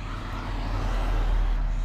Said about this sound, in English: Yeah, I'm in traffic right here on the road.